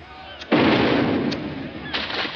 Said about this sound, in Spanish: Una bomba ha caído cerca del bote.